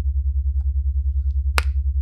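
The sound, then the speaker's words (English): A single crisp finger snap rings out alone over a steady low electrical hum. “I'm going to snap my fingers, and every time I do, you'll feel a rush of pleasure fill your body.”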